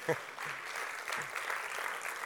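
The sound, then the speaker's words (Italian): Audience applause at a jazz lecture, heard as a faint, steady wash of clapping with a voice talking over it. “E fateglielo un applauso, è veramente...”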